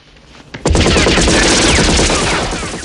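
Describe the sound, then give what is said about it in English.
Gunfire from a bush in a drama scene: after a brief quiet start, a loud, sustained burst of rapid automatic shots erupts and continues to the end. “He picks up Jenny and turns as Diaz fires at them from a bush.”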